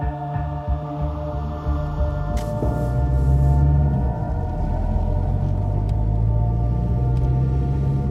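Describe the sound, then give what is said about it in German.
Steady low engine drone of a car driving through a February night, a continuous rumbling hum with layered tonal harmonics that holds at an even level throughout, with no voices. “Anton und Kurt fahren weiter durch die Februarnacht.”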